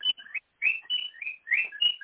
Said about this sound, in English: It's a bird. Stop. Is that your bird? Every time I start to feel the anointing, he starts chirping.